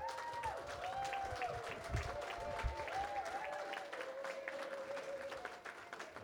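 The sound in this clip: An audience gives steady applause to welcome an award recipient, the clapping sustained and fairly faint throughout, with tonal sounds running softly beneath it.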